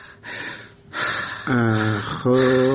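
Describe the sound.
Deep breathing during a doctor's examination: a few loud, breathy inhalations and exhalations. The later breaths come out as voiced, sighing exhales.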